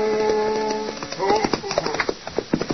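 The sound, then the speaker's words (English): Horse hooves clip-clop as a rider arrives on horseback: a steady run of sharp, evenly spaced hoofbeats sets in after about a second, over a held tonal background. “And then Chester rode up.”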